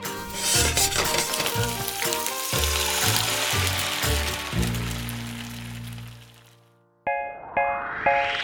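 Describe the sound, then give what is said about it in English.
A stir fry of vegetables and noodles sizzles loudly in a wok, with a rhythmic scraping and clanking of utensils against the metal. The frying cuts off abruptly and is followed by bright chiming ding tones. “Woks are great for making a stir fry. That's when you throw a bunch of ingredients in, like veggies and noodles, and fry them all up into a delicious meal.”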